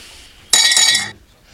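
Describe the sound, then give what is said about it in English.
Glasses clink together in a toast: one bright, sharp clink whose ringing tone lasts about half a second before fading, with no other sound alongside it. “Cheers to that.”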